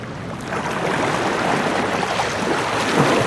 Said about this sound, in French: Quand la mer est là, et quand elle est forte, là, on est dans une ambiance même. Et lorsque la vague joue avec les rochers,